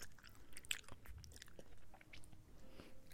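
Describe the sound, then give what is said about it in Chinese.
Chewing on a bite of beef jerky: many short, crunchy, moist bursts of biting and mastication in an irregular rhythm, moderately loud and with no talk. “你吃一口，姐姐也吃一口，咱们一人一口好不好？”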